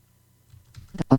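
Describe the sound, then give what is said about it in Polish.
Keys being pressed on a BrailleSense braille notetaker keyboard while typing a message, heard as a few soft clicks that turn into sharper, louder taps toward the end, with no voice. “I teraz chcę wpisać jakąś wiadomość, więc znowu sobie klikam.”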